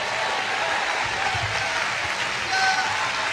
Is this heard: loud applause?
yes